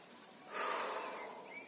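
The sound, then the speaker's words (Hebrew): Deep breathing while sitting and relaxing the body: one long, airy, noisy breath that swells and then holds steady, soft and alone. “אני יושב, מרגיע את הגוף, נושם, נשימות עמוקות,”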